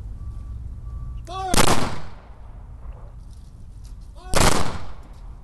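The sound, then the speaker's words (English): Two loud rifle volleys of a salute at a military memorial, each a sharp burst of near-simultaneous cracks with a short decay, preceded by a shouted command and spaced about three seconds apart. “hundreds of soldiers came to the memorial for Lieutenant Colonel Kruger at Fort Carson and honored him with a rifle salute.”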